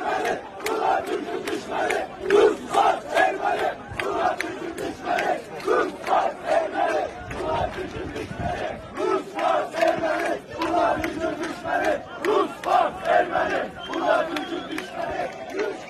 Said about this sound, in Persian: بذارید براتون شعاری که امروز جوانان آذری باکو در تجمع اعتراضی سر میدن رو پخش کنم.